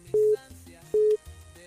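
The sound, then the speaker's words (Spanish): A busy signal after a dropped phone call: two short, steady mid-pitched beeps, evenly spaced, over a faint low background hum. “Por aquí como que se le cayó la llamada, hombre.”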